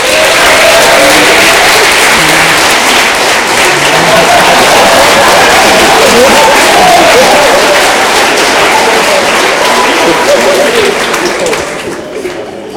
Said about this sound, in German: Aber ich glaube, es ist ihr einen Applaus verdient, oder?